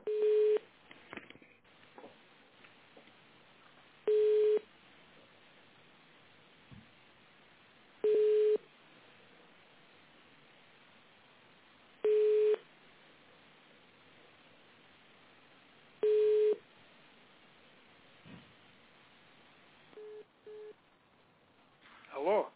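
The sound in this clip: Telephone line tones sound while a call is transferred to a business center's management company: about five long, steady beeps, each roughly a second, repeat every four seconds over a faint, hissy line.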